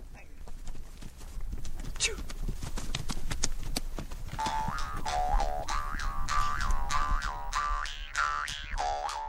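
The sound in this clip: Mongolian horses' hooves clip-clopping while being ridden: a steady run of many sharp hoofbeats, joined partway through by a voice carrying a wavering, sung or chanted tone over the hoofbeats.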